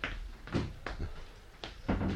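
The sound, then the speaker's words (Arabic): A door is shut with a few faint wooden clunks and knocks, spaced unevenly, with no talk. “استنى اما اقفل الباب علينا.”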